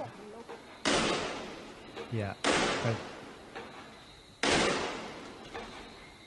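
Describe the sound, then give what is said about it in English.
Gunfire or smoke grenades fired into apartments: three loud, sharp reports spread over several seconds, each trailing off, with fainter knocks in between. “It might be live rounds we hear, but it could also be the firing in smoke grenades into apartments.”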